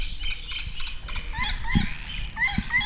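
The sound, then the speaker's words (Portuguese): Bird song plays in a recorded soundscape through several speakers around a room, with bright high chirps and short warbling phrases repeating faintly over a low background hum. “este passarinho não está lá ao fundo, está aqui.”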